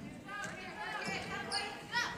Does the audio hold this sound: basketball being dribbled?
yes

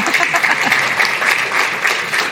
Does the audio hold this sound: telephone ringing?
no

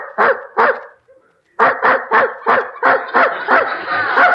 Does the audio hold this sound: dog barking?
yes

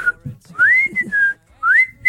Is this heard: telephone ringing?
no

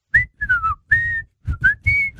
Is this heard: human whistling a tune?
yes

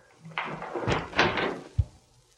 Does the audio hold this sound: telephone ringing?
no

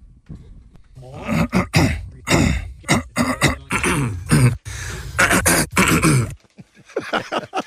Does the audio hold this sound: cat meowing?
no

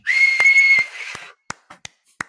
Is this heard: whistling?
yes

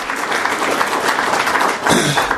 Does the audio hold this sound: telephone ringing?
no

